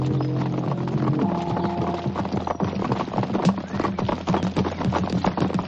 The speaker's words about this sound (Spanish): Poco después, bajan de los caballos y se esconden entre hierbajos.